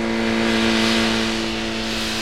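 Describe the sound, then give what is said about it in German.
Motorcycle engine as the bike rides off toward town, a steady, full droning hum with strong tonal harmonics that eases slightly toward the end. No voices. “fuhr Sam gerade auf einem Motorrad in Richtung Stadt davon”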